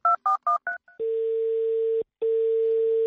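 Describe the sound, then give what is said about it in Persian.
Telephone keypad dialing of an outgoing call to a private home: four quick beeps and a fainter fifth, then a steady low single-pitch line tone, a brief break, and the same tone again. “در این نخستین روز نوروز به منزل آقای پرویز صیاد زنگ میزنیم تا نوروز رو به ایشون تبریک بگیم.”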